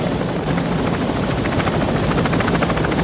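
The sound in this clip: A helicopter carries a stretcher evacuation, its spinning rotor blades making a loud, steady, rapid chopping beat that never lets up, mixed with dense engine roar.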